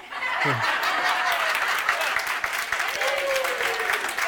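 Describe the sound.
Audience clapping fills the whole stretch as dense, steady applause at an even loudness, with some voices faintly mixed in.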